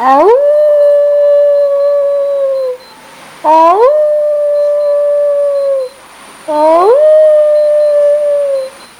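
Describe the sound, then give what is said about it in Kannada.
A human voice imitates a wolf howl three times. Each long howl slides up into a held, clear tone and eases slightly down before stopping, with short silent gaps between the howls. “Mimicry. ತೋಳ”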